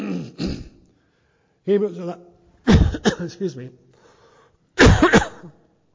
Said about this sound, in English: Something caught in my throat.